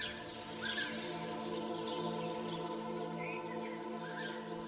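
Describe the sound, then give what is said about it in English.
Birds sing among trees: faint chirps and short warbling calls recur throughout, set over a steady, sustained droning tone that continues without a break. “There are a lot of trees, and you can hear the birds singing.”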